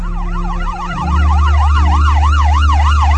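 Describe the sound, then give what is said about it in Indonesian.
An ambulance siren wails steadily, its tone sweeping up and down in quick repeated cycles, while a low vehicle rumble swells and the whole sound grows louder a third of the way through. “terdengar suara ambulans mendekat.”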